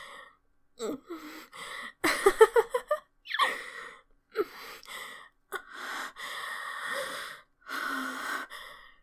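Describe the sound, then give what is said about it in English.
A person choking, with strained gasps, snorts and wheezy breaths in irregular bursts, some clustered rapidly and others separated by brief silences. “But you do seem to be choking. Perhaps you do have contraband in your throat?”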